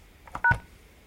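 A telephone keypad tone as a key is pressed to save a voicemail: a single short, steady dual-pitch beep, with faint button clicks just before it.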